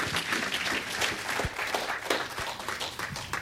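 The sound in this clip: Audience applause welcomes a speaker to the JCCSF before a talk. Many hands clap in an even, continuous patter at a moderate level.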